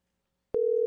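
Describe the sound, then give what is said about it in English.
A telephone call that goes unanswered: after a short silence, a steady, pure electronic tone sounds abruptly and holds without a break until the end. “Well, I think we just continue to dial until he answers.”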